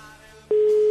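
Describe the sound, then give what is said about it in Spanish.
Telephone ringing tone while placing a call: after faint line hiss, a loud, steady mid-pitched tone starts abruptly halfway through and holds to the end. “Estamos llamando”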